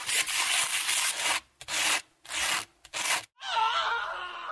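Sandpaper rubbing in several rasping strokes of uneven length separated by short pauses, the first long and the last few quick, followed by a brighter tonal, musical phrase.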